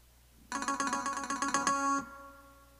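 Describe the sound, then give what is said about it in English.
A trill ornament played on a phone, bright tones rapidly alternating for about a second and a half before stopping abruptly. “oh my god, I hate this phone, I hate how gravity works. Alright, this is a trill,”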